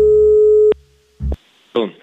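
A steady, unbroken telephone call tone holds for under a second and then cuts off, followed by a couple of short bursts of other sound.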